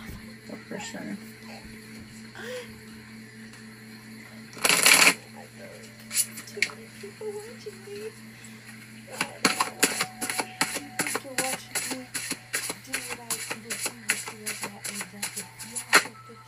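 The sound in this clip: A deck of Romance Angels oracle cards being shuffled by hand: one short, loud riffling burst early on, then a long run of rapid, crisp card flicks and slaps that continues to the end.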